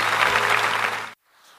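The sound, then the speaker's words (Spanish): Church audience applauding after a prayer: a dense, loud burst of clapping lasting about a second, cut off abruptly and followed by near silence. “Denle un aplauso a cada uno de ellos que ha hecho esa oración.”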